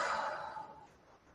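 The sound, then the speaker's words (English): A single soft, breathy exhale out through the mouth, a faint airy hiss that starts strongest and gradually trails away to quiet. “Let's take a couple deep breaths in through the nose and exhale out the mouth.”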